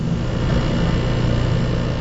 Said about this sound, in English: This is the sound of Rob Jackson calibrating sensors at his lab at Stanford University. He measures emissions from gas stoves.